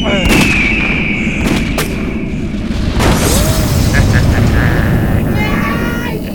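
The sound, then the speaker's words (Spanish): A cannon fired through the skylight hatch of a rocket cabin: a few sharp, booming blasts cut through a loud, continuous rushing roar that fills the whole clip. “Haciendo acopio de todas sus fuerzas, encaramóse hasta la escotilla, colocó el cañón de Justina sobre la claraboya y disparó.”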